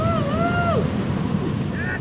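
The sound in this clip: Ocean waves and surf at the Sunset Point surf spot: a steady, loud wash of breaking water and wind noise, with a few faint whistling tones over it.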